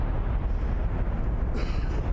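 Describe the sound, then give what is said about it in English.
A bomb explosion sound effect: a dense, loud, sustained rumbling roar that holds steady for the whole stretch without any voices. “Drop a bomb for Tennessee”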